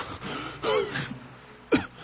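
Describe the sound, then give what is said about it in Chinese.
Heavy gasping for breath from someone surfacing on a dark sea after swimming: a few sharp, ragged intakes of air, the last one the loudest, with quiet breathing between them. “洛翔探出头，大口地喘息着”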